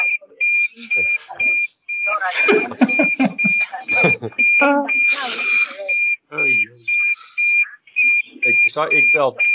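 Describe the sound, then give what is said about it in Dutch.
A fire alarm beeps: many short, high-pitched tones repeat at a regular rhythm while people talk over them in Dutch. “Brandalarm. Op mute, hè?”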